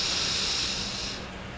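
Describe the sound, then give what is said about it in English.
A deep breath drawn in as one long, steady, airy hiss that fades and softens near the end. It is heard on its own, with no talk. “Deep breath in.”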